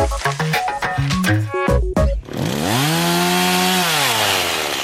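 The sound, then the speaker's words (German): A chainsaw used for winter timber cutting starts after a short run of stepped musical notes, then its engine rises to a loud, high, buzzing whine, holds steady, and eases down near the end. “Macht ein Wahnsinnskrach, so eine Motorsage. Aber hört man jetzt im Winter wieder häufig, da wird besonders viel geholzt.”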